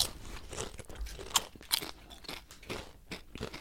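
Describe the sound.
Crunchy chewing of jelly beans, with irregular bursts of crackling bites and softer wet mastication, fairly faint and uneven in rhythm.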